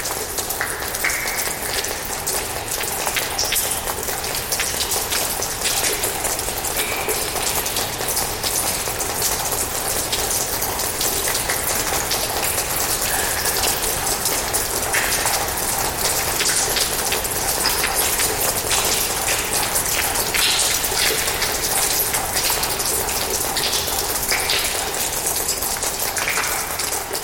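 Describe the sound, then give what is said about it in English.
Dripping water patters inside a space of ice, reverberating off the icy floor and surroundings. Dense, steady, rain-like pattering continues evenly throughout at a constant level. “that just was this beautiful, patter because it includes the reverberation of the ice, both on the floor, but everything around you is ice in this.”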